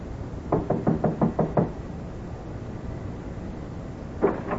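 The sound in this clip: Knocking on a warped, dark-stained wooden door in a hallway: a quick run of several sharp raps, then after a pause one more knock, fairly faint against a quiet background.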